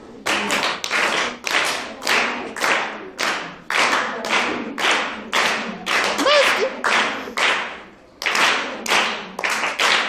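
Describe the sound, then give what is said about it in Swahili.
Rhythmic group clapping in a five-to-one countdown pattern: sharp bursts of claps in shrinking sets, loud and mostly alone, with one clear gap before the pattern resumes. “Au tubadilishe mfumo wa kupiga makofi? Ndio. Tuanze matano, tunakuja manne, tunakuja matatu, mawili, tunamalizia na moja.”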